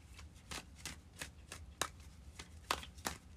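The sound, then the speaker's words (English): Tarot cards are shuffled in many quick, crisp riffles and soft slaps that come in an uneven rhythm over a faint hiss. “I'm going to pull one more card.”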